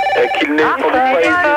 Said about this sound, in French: Ça commence à me prendre la tête, celui qui s'amuse avec un téléphone comme ça.